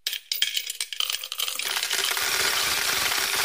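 Coins drop into a piggy bank, first as a quick run of separate metallic clinks, then as a dense, continuous rattling cascade that holds steady to the end.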